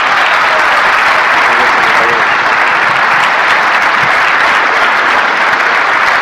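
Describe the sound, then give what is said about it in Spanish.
An audience breaks into dense, loud applause that holds steady and unbroken for about six seconds. “Por favor, recíbanlo con un súper aplauso.”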